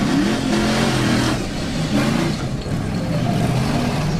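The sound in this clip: A loud, steady engine drone from an off-road vehicle driving toward Murun in Mongolia, with low, buzzing engine tones that shift slightly in pitch throughout and no voices.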